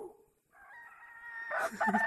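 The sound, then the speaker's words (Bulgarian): A rooster crows with a drawn-out, harmonic call that swells in loudness and breaks into a harsher, noisier ending. “Абе, харесва ми твоето кукуригане. Ясно, четливо, високо и искрено.”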